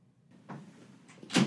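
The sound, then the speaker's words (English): A door is opened to let a cat out: faint soft rustles and a muffled bump, then a sharper, louder clunk of the door at the very end, with no talking. “I had to let my cat out the door.”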